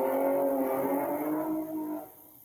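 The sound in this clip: A motorcycle revs and drives off fast and loudly: a loud, buzzing engine roar with a strong harmonic drone holds steady, then drops away sharply near the end.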